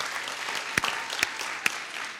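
Live audience applause at a community gathering: continuous, even clapping with a few sharper individual claps popping out above the rest.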